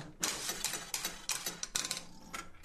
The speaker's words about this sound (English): He's trying his luck on a machine that will be familiar to the passengers of the 1950s express.